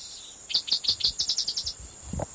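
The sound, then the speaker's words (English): Cicadas chirp in a quick, evenly spaced series of sharp high pulses over a steady thin high-pitched buzz, fairly loud and with no talk. “cicadas in the background”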